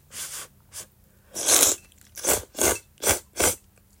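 Slurping and chewing of fresh ramen noodles in soy-sauce-based Morioka-style broth: several short wet bursts, a louder drawn-out slurp, then a run of evenly spaced noisy mouthfuls, with no talk.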